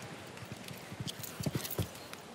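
A ridden horse's hooves clip-clop faintly at an equestrian competition: many soft, uneven thuds in a loose rhythm, a few slightly sharper strikes near the middle and end.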